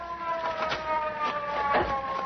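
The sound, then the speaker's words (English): A police car siren wails continuously. Its steady high tones are overlaid with regular pulsing bursts, loud and unbroken throughout. “here comes a police car. Yeah, we'll flag it down.”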